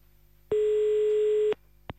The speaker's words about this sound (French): Allez, c'est parti, on y va, on appelle. Ça sonne, c'est bien.